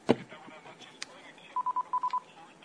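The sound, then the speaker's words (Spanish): Telephone tones sound on a phone line as a call comes in: a sharp click, then six short, evenly spaced electronic beeps at one steady pitch, fairly faint. “En este momento tenemos una llamada telefónica que está entrando a nuestro número.”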